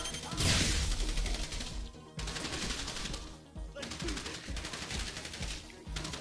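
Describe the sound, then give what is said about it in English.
Rapid gunfire in the video game GTA Online during the Diamond Casino Heist, with shots coming through a window. Dense bursts of automatic fire and impacts run almost continuously, broken by two brief pauses. “You're getting shot through the window. Someone just shot at me.”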